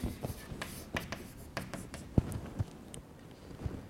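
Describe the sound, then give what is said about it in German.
Writing an equation on a board during a physics lecture: quiet, irregular scratching strokes and light taps, with a few sharper knocks standing out from the soft scraping, no talk over it. “So, nun können wir also die Saha-Gleichung dran schreiben für diese angeregten Zustände.”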